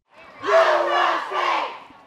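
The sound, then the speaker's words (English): An excited crowd shouts and cheers at a women's rally in Coolidge Park, Chattanooga: a loud two-second burst of whooping voices with one high, sustained yell above the roar. “I'm downtown in Coolidge Park in Chattanooga at the women's rally. The crowd is really excited.”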